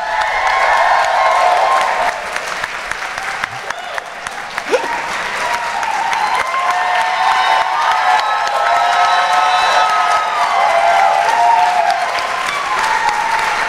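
An audience at a live stage show applauds and cheers as a drag queen guest is welcomed on stage. Loud, sustained clapping with whoops and shouts runs continuously for about thirteen seconds.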